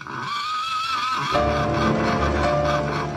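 A horse neighing in a stable at early dawn, a loud, long, wavering whinny that carries into a steady, dense drone for the rest of the moment.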